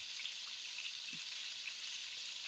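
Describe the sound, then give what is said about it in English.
Balled-up food fries in oil in a cast iron pan, giving a faint, steady sizzling hiss with no talk over it. “This is one of my grandma's cast iron pans. Love it. And I got some oil in here. Oopa. I'm going to do that. And I'm just going to fry them in the pan.”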